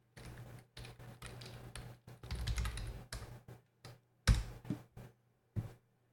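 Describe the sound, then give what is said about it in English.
Typing on a computer keyboard: many quick, uneven clusters of clicking keystrokes separated by short pauses, fairly faint and heard alone. “Jeez, I gotta learn how to type.”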